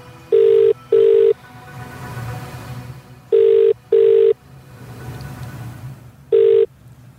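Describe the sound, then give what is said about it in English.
A telephone ringing tone sounds as a call is placed to a prize winner. Steady mid-pitched bursts come in double rings, two pairs and then a single burst, over a faint low background hum. “punch in the number. We are dialing.”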